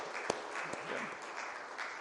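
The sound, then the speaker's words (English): Audience applause in a round for a couple returning with a new baby: a steady, even wash of many hands clapping, moderate in level, with one or two sharper claps standing out near the start. “Let's give them a round of applause as well.”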